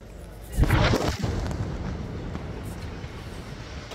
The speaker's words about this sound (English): A separate Israeli strike targeted a house in Al-Nusirat camp in central Gaza. This video shows the moment the home was destroyed, followed by thick dust spreading across the city's market.